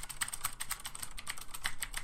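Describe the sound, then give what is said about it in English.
Typing on a computer keyboard: a quick, uneven run of many light key clicks at a low level, with no voices. “It's so hard to type when everyone's listening.”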